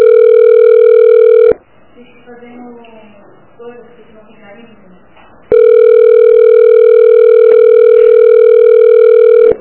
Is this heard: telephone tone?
yes